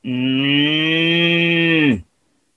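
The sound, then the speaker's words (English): A moo box toy, a small cylindrical can with holes in its top, lowing like a cow when turned over: one loud, steady, buzzy nasal tone lasting about two seconds that dips in pitch just as it cuts off. “This is what I call a Moo box. It was just a little cylindrical thing with holes in the top. And when you turned it over, it just go,”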